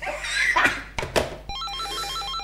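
A telephone rings at midnight in a radio drama scene: a warbling, rapidly alternating electronic trill that starts partway through, after a few brief knocks and rustles.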